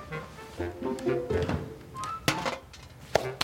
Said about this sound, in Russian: Открываются большие деревянные двери.